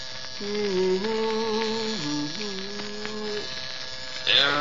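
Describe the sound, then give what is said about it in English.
An electric razor buzzes while someone shaves, its steady hum shifting up and down between several held pitches like a faltering tune, a sign of a fault, with a brief louder burst at the end. “What do you think about this razor? For years, it hummed Jeannie with the light brown hair. The last couple of days, just can't seem to carry a tune.”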